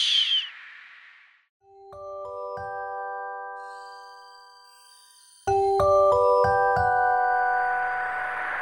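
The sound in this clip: A theatre's third-call bell chime rings out clear tonal notes: a few short ringing tones, a lull, then a brighter run of stepped chime notes that lingers and fades.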